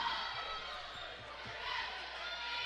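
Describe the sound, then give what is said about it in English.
A basketball is dribbled near the half-court line during a women's game, with a steady series of soft, low bounces under loud, continuous crowd noise. “still dribbling up there near the half-court stripe”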